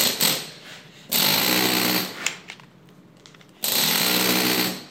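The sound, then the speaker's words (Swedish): Toothed-chisel hammering on stone, tooth-dressing it to give an old, grooved finish on church masonry: rapid, loud, gritty bursts of percussive chipping, with two long intense stretches separated by a quieter gap. “Med det här... tandhuggning, du får ett helt annat djup och ett helt annat utseende på stenen. Du får den här gamla utseendet.”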